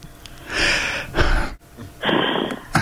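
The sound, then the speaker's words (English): A group of people on a video call take a deep breath together: a few soft, breathy rushes of air with pauses between them, with no talking. “take a deep breath, please.”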